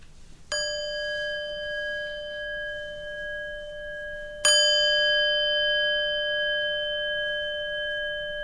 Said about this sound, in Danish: Og jeg starter med at slå 3 gange på klokken, og beder dig om at følge lyden, indtil du ikke kan høre den længere.